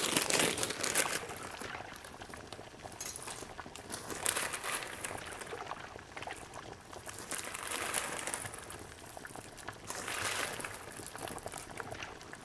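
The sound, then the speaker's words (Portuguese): Dry rigatoni pasta being added to a pot of salted water, heard as a steady crackly, rattling hiss with a few louder surges and no talk. “Então vou colocar aqui meu rigatone.”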